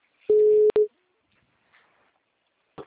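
Ringback tone of an outgoing telephone call: one steady mid-pitched tone about half a second long, briefly broken by a click, followed by near silence with a few faint clicks.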